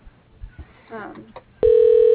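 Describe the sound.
Telephone dial tone as a call is placed again: a brief murmur of voice and a sharp click, then a steady, loud, unbroken tone that runs to the end.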